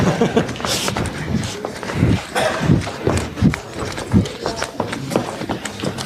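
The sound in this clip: Footsteps of a person walking around a room, a few dull thumping steps in a steady rhythm, heard under ongoing talk.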